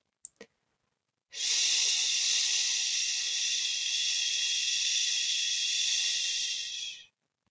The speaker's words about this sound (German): Atme so viel Luft aus wie möglich und stell dir dabei vor, dass aller Frust und Ärger aus dem Leberbeutel herausgedrückt werden.